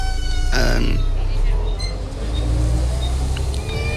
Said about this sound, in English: As you can hear, we're on a bus.